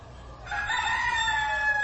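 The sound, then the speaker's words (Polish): A rooster gives a single crow after a brief quiet start: a loud, sustained, harmonically rich call that holds steady to the end. “Kogut, kogut. Tak jest. To jest kogut.”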